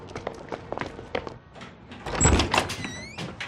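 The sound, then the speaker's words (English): A townhouse front door is shut with a heavy, low thud partway through. Quieter scuffs and rustles of people moving in come before it. “Entering last, Mag shuts the front door.”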